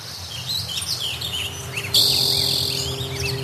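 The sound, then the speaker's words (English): Diverse wild birdsong in Northern California: many quick, high chirps and tweets overlap in a dense chorus, with steady insect trilling underneath and a brighter, louder buzz joining partway through. “It went from really beautiful texture and density and diversity of birds”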